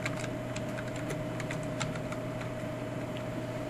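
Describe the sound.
Keystrokes on a computer keyboard as a number is typed in: a quick run of light, uneven key clicks over a steady low hum.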